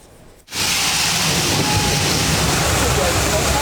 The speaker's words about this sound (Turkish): Çalışma sırasında ana boru patladı. Sokak ve bir iş yeri su içinde kaldı. Avcılar'da tonlarca su boşa aktı.